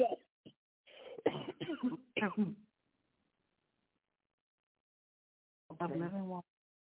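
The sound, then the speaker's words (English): A man coughs during a sermon, with a cluster of harsh coughs and throat-clearing sounds, then a pause before one more short burst. “See, I'm starting this coughing. That's a distraction.”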